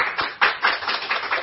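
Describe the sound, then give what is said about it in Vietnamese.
A round of clapping follows a song. Quick, even claps come in a short burst of applause at a moderate level. “Mình cứ tự khen mình bằng một tràng pháo tay thôi.”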